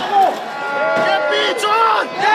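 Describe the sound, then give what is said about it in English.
A protest crowd in central Kathmandu, Nepal, shouts chants against the Prime Minister after his resignation, with loud overlapping raised voices that rise and fall continuously. “They're shouting, KP Chor, Desh Chor, calling Mr. Oli a thief and demanding he leave the country.”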